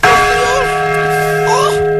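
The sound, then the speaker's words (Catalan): The restored Mònica bell of the Seu Vella in Lleida sounds a quarter-hour chime, struck once with a loud onset and a long, steady ringing tone, while a voice briefly exclaims over it. “Perquè gairebé 9 anys després, els quarts des de la Seu Vella tornen a sonar així.”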